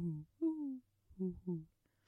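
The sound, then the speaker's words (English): A human voice imitating birds chirping at dawn, four short, fairly faint voiced notes in two pairs. The second note slides downward in pitch. “Have you ever heard a bird chirp? That's quite pretty. You know, like the ones at 5 a.m. where they're like...”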